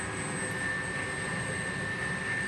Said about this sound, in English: All right, so I think we're landing.